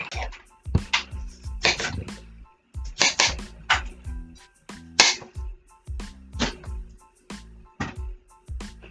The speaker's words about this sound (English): So that's what's in the background right now. We're on the second step. So we're beating the eggs, sugar, and vanilla into a large mixing bowl until light and fluffy.